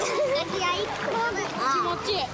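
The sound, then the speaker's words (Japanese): Children shout and chatter as they play and splash in a swimming pool during a children's club swim session, their lively high voices running over bursts of splashing water. “子どもたちは思い思いにプール遊びを満喫しました”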